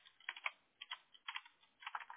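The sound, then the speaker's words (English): Typing a name on a computer keyboard: quiet clusters of quick key clicks in a few short bursts separated by brief pauses. “And then you're going to type your name exactly as it reads.”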